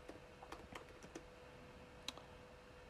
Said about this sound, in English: I'm going to type this in, forgiveness meaning.